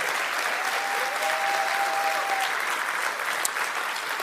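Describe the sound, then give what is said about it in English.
A church audience at Florida Bible Church applauds its visiting guests during a service. Dense, even clapping holds at a steady level for the whole stretch. “And let's give them a hand, Florida Bible, all our guests.”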